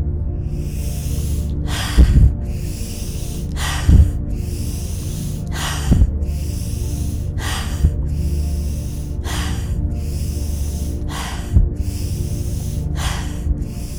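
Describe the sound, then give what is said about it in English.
Deep breathing, in through the nose and out through the mouth during a guided breathing exercise: many airy, hissing breaths at an even, unhurried rhythm, over a soft, steady low drone. “we're going to do 8 breaths in through our nose and out through our mouth”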